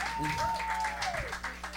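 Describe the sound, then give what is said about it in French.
Faint audience applause at a fair as a longtime volunteer is called up, with soft scattered clapping under a voice. “Mesdames et messieurs, on applaudit Mathieu.”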